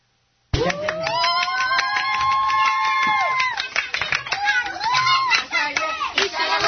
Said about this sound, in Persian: یه عروسی دست ما رسیده، عروس خانم ببینید چقدر شاده، گوش بدید.